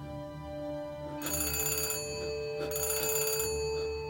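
Telephone bell ringing in two bursts of bright, metallic trilling with a short gap between them, over steady background music and with no voices.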